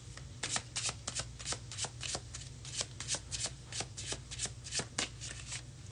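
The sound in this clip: A tarot card deck is shuffled in a long run of many rapid, crisp riffling slaps, steady and fairly loud, with no talk over it.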